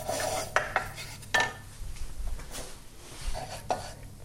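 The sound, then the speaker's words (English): Soft scraping and light tapping of a utensil stirring 15 grams of butter as it melts and coats the bottom of a small pan; a few sharper clicks of metal stand out over faint, irregular scraping. “So I'm just stirring that butter as it's melting, just getting it to coat the bottom of the pan.”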